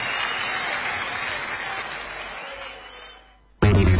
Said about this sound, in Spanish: Un fuerte aplauso